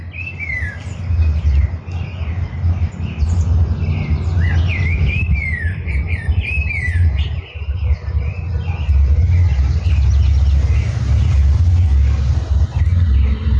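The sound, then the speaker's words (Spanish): Several different birds sing and answer one another, trading bright chirps and looping whistles mostly in the first half, over a steady low rumble that continues throughout. “Estamos escuchando un contrapunto de distintos pájaros. Vemos cómo uno le canta y el otro le contesta.”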